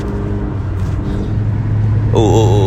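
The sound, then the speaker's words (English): From inside a car being driven comes a continuous low engine hum and road rumble at moderate loudness. A voice enters near the end. “I'm driving, y'all, so give me a minute.”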